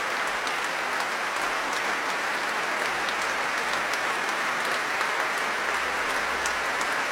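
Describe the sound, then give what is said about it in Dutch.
Audience applause for the conductor and founder of an ensemble after a concert of sacred French baroque music: dense, steady clapping that holds at an even level throughout, with no talk. “Groot applaus ook voor deze dirigent en oprichter dus van het gezelschap.”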